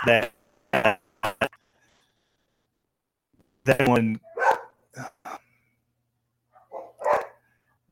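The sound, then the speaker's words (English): Dogs barking excitedly in sharp, loud bursts: a quick run of barks, a pause, then another cluster of barks, followed by a few scattered yips. “that one, your dogs are just going crazy. I am so sorry.”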